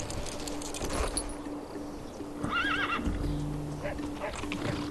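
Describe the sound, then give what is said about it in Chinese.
A saddled horse on grassland at dawn gives a single quavering whinny about midway, ready to set off. Before and after it, steady ambient noise carries a faint sustained tone. “草原天刚放亮，索南已备好马鞍，准备启程。”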